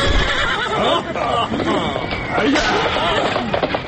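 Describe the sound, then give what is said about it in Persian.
A horse whinnies loudly and hooves clop as riders mount and ride off, the neighs and hoofbeats packed into a busy, dense sound. “آرتا و امیر کبیر سوار اسب شدند و به سمت حمام فیل رفتند”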